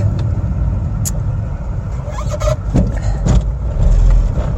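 A car driving through a town in Sweden: a steady, loud low engine and road rumble, with a few brief clicks on top and no talk.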